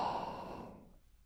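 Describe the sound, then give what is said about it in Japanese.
A single slow breath out during a breathing exercise, a soft, airy exhale that starts fairly loud and fades gradually to quiet. “息を吸って、吐いて、”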